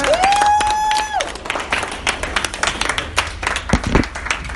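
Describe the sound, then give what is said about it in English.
An audience applauds to welcome a speaker. A sustained tonal cry opens it, then many hands clap loudly in a dense, uneven patter that rises and dips without stopping. “So I think let's give him a big hand.”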